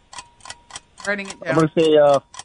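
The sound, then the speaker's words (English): Steady ticking of a countdown timer during a trivia guessing game: a few evenly spaced, sharp clicks, after which a person starts talking over it. “Here's the timer.”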